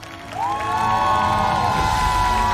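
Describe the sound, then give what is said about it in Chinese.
An audience cheers and applauds to welcome guests onto a stage. The crowd noise swells in after a brief quiet start and then holds as a loud, steady wash. “首先让我们掌声欢迎国风音乐社的寻风主理人王佩瑜老师、立波老师，”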